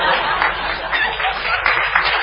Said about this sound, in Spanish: ¿Qué aplaude, señora? Espera un poquito, que estamos viendo.